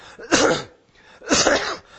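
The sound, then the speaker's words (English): Two harsh, explosive coughs from a person suffering a bad cough after mowing grass, each a short rough burst, evenly spaced and fairly loud, with quiet between them. “Excuse me, this cough has been terrible, and I cut the grass yesterday and I shouldn't have.”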